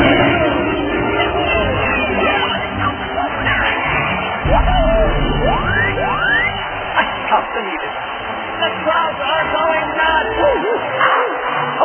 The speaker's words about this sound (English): 这个句子叫 The crowd is going nuts